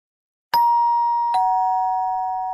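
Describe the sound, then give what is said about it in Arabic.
An apartment doorbell chimes two ringing tones, a ding followed by a slightly lower dong, with the second note sustaining as it slowly fades. “دق جرس الباب فذهبت لأفتحه.”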